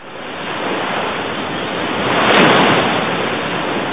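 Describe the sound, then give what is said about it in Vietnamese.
Night tide surging on a river where it meets the sea, heard as a continuous loud roaring wash of broad rushing noise. It swells a little toward the middle, with no voices. “Nghe có tiếng sấm ầm ì xa xa, ấy là thủy triều ban đêm trên sông Tiền Đường sắp tới.”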